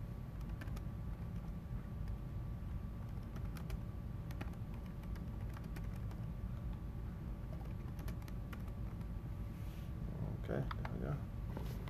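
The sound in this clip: Someone types a full name on a computer keyboard, with a run of quick, light key clicks over a low background hum and a brief voice near the end.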